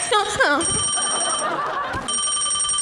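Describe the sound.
An electronic telephone ringtone sounds for an incoming call, steady high-pitched tones in two bursts separated by a short gap, with a brief voice at the start.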